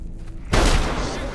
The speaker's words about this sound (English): Delmar is hit by a bullet as Sniffer fires wildly up the mineshaft.